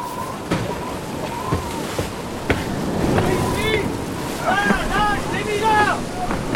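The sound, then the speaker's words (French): Heavy seawater sweeps across a fishing ship's deck in rough weather: a steady, roaring rush of water and wind, broken by a few sharper knocks and creaks. “La mer balaye encore le pont.”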